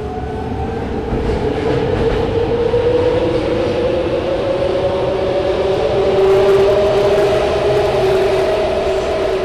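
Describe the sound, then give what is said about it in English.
A BART train's fixed wheels let out a sustained, high screeching whine on the track, holding steady and swelling slightly louder over a continuous rumbling roll with no talk. “Now, BART has done some things to try to cut down on this banshee scream. The new cars have better sound insulation, so you shouldn't hear that quite as much, but the wheels are still fixed.”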